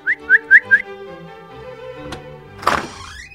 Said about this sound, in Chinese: 然后吹了声口哨